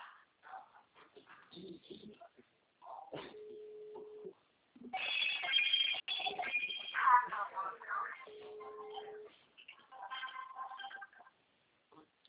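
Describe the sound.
An outgoing phone call rings out with two steady, mid-pitched ringback tones about five seconds apart, heard amid busy background noise and voices.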